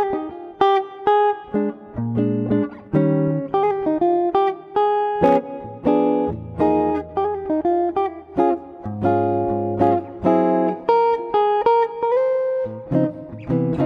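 A swinging jazz standard played instrumentally, a clear melodic line moving over shifting low bass notes with a steady, lilting pulse and no voices.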